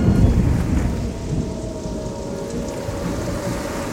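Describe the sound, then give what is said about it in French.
Thunder rumbles through a steady roar of heavy rain as a tropical storm strikes the Caribbean over a rough sea. The dense, hissing downpour is loudest at the start, then holds at an even level with deep rumbling underneath. “une tempête tropicale s'abat sur les Caraïbes. Le tonnerre ronde, le vent souffle et la mer est agitée.”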